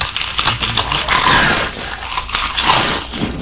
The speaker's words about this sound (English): Nobody that called in got it. I said mukbang and y'all said walking in snow.